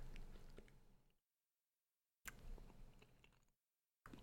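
Chewing on a bite of finely chopped salmon with rice: two bursts of soft, moist mouth sounds separated by silent pauses, and a third burst starting at the end.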